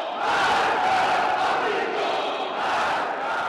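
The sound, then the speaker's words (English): A large crowd at Friday prayers in Tehran chants loudly in unison, forming a dense, steady roar of many voices that swells and eases slightly in rhythm. “That's the sound of Friday prayers in Tehran, where people chant, "Death to America, long live Khamenei."”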